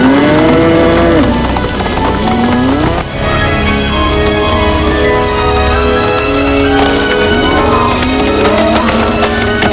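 A herd of cattle lows as it is driven along, with long overlapping moos rising and falling in pitch over a dense, continuous background.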